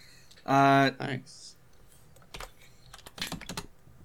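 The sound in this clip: Notes are typed on a computer keyboard: after a short burst of speech, scattered clicks and keystrokes come in a few uneven clusters, moderately loud and crisp.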